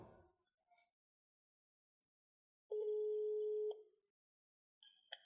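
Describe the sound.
Telephone tone after a dropped call: a steady, pure electronic tone holding for about a second, then short beeps at the end, faint and with little else around it.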